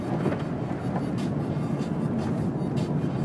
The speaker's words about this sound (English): Maybe I just have the radio lower so I'm hearing more road noise. These roads are so fucked up. Now they're wet too, so.